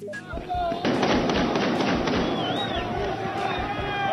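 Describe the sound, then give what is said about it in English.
Celebratory gunfire fired into the air in Tripoli: many sharp shots crack in quick, irregular bursts over a steady rumbling din, with shouting voices throughout. “Most of that firing is in the air”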